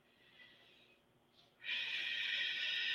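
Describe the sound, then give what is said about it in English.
A deep breath in: a quiet, faintly breathy stretch, then a single long inhalation that starts abruptly and holds as a steady, loud, airy hiss to the end. “So let's take a few deep breaths”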